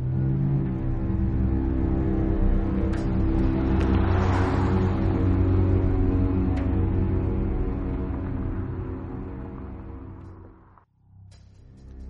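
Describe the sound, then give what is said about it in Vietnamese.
A car engine revving and accelerating as the driver speeds off: a loud, steady rumbling drone that swells midway, then gradually fades before cutting off near the end. “rồi đạp ga phóng đi”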